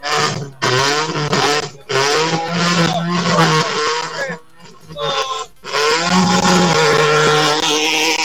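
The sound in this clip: A rally car's engine roars and revs hard as it leaves the start of a stage, a loud, harsh drone broken by a few short drops in power.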